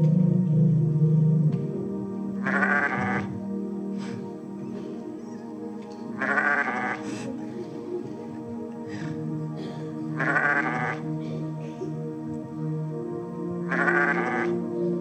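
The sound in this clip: Sheep bleating: four loud, wavering bleats, roughly evenly spaced about four seconds apart, over a steady low background hum.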